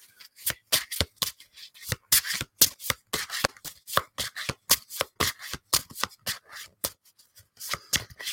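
Tarot cards shuffled by hand during a card reading, a long run of many quick, crisp snaps and riffles in an uneven rhythm, fairly loud and with no talk.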